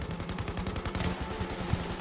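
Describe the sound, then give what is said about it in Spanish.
Gunfire from at least half a dozen automatic rifles: a dense, rapid rattle of overlapping shots that holds a steady level throughout, without pauses or voices. “Cuando empezaron los disparos, caí al suelo.”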